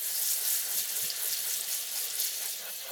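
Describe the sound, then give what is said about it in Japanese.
Water runs steadily from a tap, rinsing hair thoroughly before shampooing. The sound is an even, bright hiss with no pauses and no talk. “十分に潤わせてからじゃないとうまくシャンプーができないので、このままじっくりと流していきますね。”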